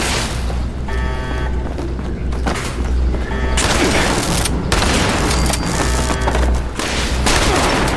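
Loud gunfire and explosions from a video game shootout, with dense, rapid bursts of shots and heavy booms running continuously without a break.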